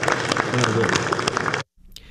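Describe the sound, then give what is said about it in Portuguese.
Applause at the close of a special session in the Brazilian Senate: a brief burst of dense clapping that stops abruptly, leaving near silence. “Salva de palmas a vocês.”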